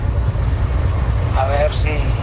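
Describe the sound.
Inside a moving car, a steady low engine and road rumble runs continuously beneath someone talking.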